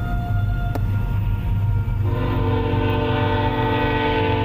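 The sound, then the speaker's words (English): A passing train rumbles steadily. Partway through, its horn sounds a sustained, chord-like blare over the noise. “There's a train.”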